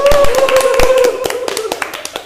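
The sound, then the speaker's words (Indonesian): A small group of hosts clap for themselves: a loose burst of sharp hand claps that starts strong, then thins into sparser, softer claps toward the end. “Boleh kita kasih tepuk tangan untuk diri kita”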